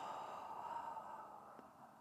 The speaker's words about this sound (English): deep belly breath, then a breath into the chest. Exhale,